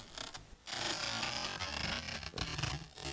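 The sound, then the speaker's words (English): Paper torn very slowly, then slowed down even further, gives a quiet, low, grainy creaking rasp. It breaks off briefly near the start, then carries on as a sustained crackle. “take a piece of paper and tear it very slowly. Now, if we slow that down even more,”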